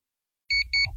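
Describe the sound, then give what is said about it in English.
An electronic snooze alarm clock beeps twice in steady, bright, even-pitched bursts, each about a tenth of a second long, over a low rumble that carries on after the second beep. “Today's show is brought to you by the Snooze Alarm. No. Making you late 9 minutes at a time.”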